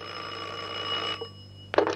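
An old telephone bell rings for a long-distance call. A steady ringing burst lasts about a second, then breaks off, and after a short pause a second ring begins.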